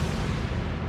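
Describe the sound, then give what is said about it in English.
A staged explosion sound effect for a radio drama, meant as the whole town blowing up: a short, loud, low rumbling blast that fills the brief moment without any voices. “Sound like the whole town blew up.”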